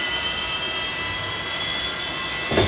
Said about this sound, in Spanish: comenzaba con este sonido, mirá. Como que el avión tomaba vuelo.